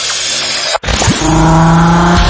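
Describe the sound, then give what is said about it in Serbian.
A car's engine drones loudly during sporty driving. A brief cutout is followed by a strong, sustained, steady engine tone with a harsh rushing edge. “On voli brzu vožnju. Vidiš, ovo je sportska vožnja.”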